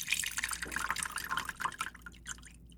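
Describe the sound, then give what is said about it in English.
About 1.5 ounces of absinthe is poured over a sugar cube resting on an absinthe spoon into a glass, giving faint trickling and dripping liquid sounds, a run of small splashes that thins out near the end. “Now you take 1.5 ounces of absinthe and you pour that into the glass, but you pour it over the sugar cube.”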